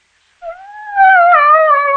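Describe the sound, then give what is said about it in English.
A pet dog lets out one drawn-out howl after a moment of silence. It starts softer, then swells into a loud, sustained tone that holds fairly steady, sagging slightly at the end. “It's only Zizi, Therese's pet dog. He too sees the humor of the situation.”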